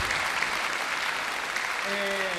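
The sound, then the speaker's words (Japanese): Concert audience applause taken as a call for an encore: sustained, even clapping from the crowd, with a voice beginning to speak just as it tapers at the end. “先ほどから大きな拍手をいただきましたが”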